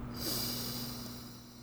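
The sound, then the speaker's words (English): A person draws one long, steady, deep breath in, a soft airy rush that holds evenly and fades slightly toward the end. “And what I want you to do is take a deep breath in”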